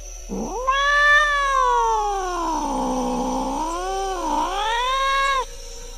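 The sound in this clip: A black cat gives one long, drawn-out meow, loud and alone, its pitch wavering as it sinks through the middle and climbs again near the end.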